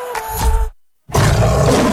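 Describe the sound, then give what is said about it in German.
Lion roaring in two loud, deep bursts split by a brief silent gap; the first is rough and rumbling, the second broader and sustained to the end. “Der schwarze Löwe brüllt wieder.”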